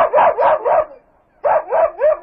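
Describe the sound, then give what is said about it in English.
A pet dog barks in two groups of three sharp, mid-pitched barks separated by a short silence, loud and alone with no voices. “that was the sound of a dog. Yes, that was my dog, Frankie.”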